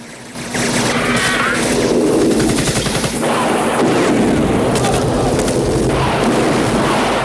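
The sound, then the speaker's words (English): Loud, rapid machine gun fire rattles in continuous bursts during an attack on a camp in the film Rambo, with Russian and Viet soldiers firing back from the ground. “Russians and Viet soldiers return fire from the ground as Rambo circles the camp in the chopper. A guard is taken out by machine gun fire.”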